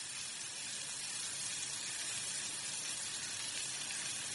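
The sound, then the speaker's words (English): Steak sizzling on a griddle, turned with metal tongs, gives a loud, steady hiss that runs unbroken throughout, with no distinct tong clicks standing out. “Adam flips a steak on the griddle. He nudges it with metal tongs. Smoke rises from the steak.”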